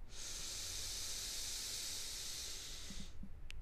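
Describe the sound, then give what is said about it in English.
A long, steady nasal inhale during a guided breathing exercise, a soft airy hiss that holds evenly for about three seconds and then stops. “And an exhale through our mouth. An inhale through our nose.”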